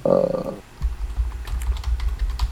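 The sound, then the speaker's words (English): Keystrokes on a computer keyboard as a search query is typed, a run of many quick, soft clicks and taps after a brief tonal sound at the start. “I typed in Raptor Trainer from Jurassic in an instantly auto-populated world. No, you stupid Google auto-predict.”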